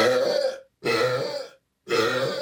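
Loud, record-setting burps from a woman come in three long, rough bursts separated by short silences.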